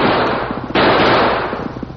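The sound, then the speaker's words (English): Gunfire from a gun emptied during a horseback chase, a rapid run of sharp cracks over a rough, noisy background, with a harder burst partway through. “Big Bill turned in his saddle and emptied his gun at the pursuing figure.”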